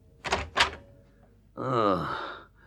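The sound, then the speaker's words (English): A door opens with two quick, sharp clunks in succession. After a brief pause comes a long, drawn-out groaning voice. “I was aroused out of the dreamless by the sound of the door opening”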